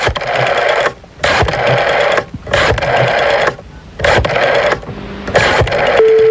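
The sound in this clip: A telephone rings during a phone call, sounding as a series of loud, buzzy ring bursts about a second long. Short gaps separate the bursts in a steady repeating pattern, followed by a brief steady tone at the end.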